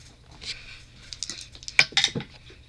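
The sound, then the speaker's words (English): Two dice rolled during a tabletop board game make a few quick, sharp clattering clicks, the final cluster of knocks the loudest, with no talking. “So I rolled 2 dice.”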